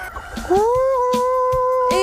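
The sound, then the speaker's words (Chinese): Chickens rush toward feed troughs, giving a drawn-out, steady cry over short clucks and soft knocks. “鸡都冲过去了， 你看这回还打架不？”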